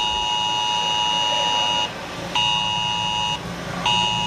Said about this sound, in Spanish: Suena esa alerta en Alcuéscar.